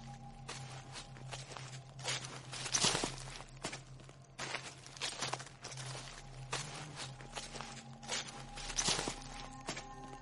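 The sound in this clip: Shuffling footsteps move along the side of a house toward the back garden late at night, a long run of soft, steady scuffing steps that stays faint throughout with no talking.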